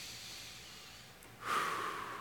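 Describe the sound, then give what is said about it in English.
A church audience taking a deep breath together during a sermon: a soft, broad rushing swell rises suddenly after a quiet stretch and holds, fairly faint overall, with no talk over it. “Can we take a breath?”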